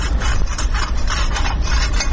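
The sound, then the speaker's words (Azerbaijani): A woman scrapes stones and gravel on a railway track with a small iron tool at a quiet station, making a continuous rough, rasping scrape that grinds on steadily with no pause. “Bir qadın əlində kiçik dəmir alətlə dəmir yolundakı daşları, çınqıları təmizləyir.”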